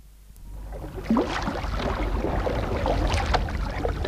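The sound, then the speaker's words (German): Water noise as a light canoe is pushed off into a river current: a broad, rushing wash of splashing and churning that swells after the first second and stays fairly steady, with no voices. “Mit aller Kraft stieß sie das leichte Boot hinaus in den Strom.”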